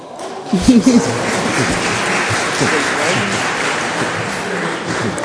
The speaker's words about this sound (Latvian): Kāpēc tādi aplausi? Godā tie kolēģi. Tas droši vien aplausi Dūklavu kungam, kuram šodien ir Latvijas vēstnesī paziņojums, ka viņam ir piešķirts ordenis.